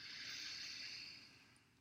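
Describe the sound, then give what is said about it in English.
A single deep inhale through the nose, taken as a grounding breath, makes a soft, airy hiss that lasts nearly two seconds and fades toward the end. “Let's just inhale through the nose,”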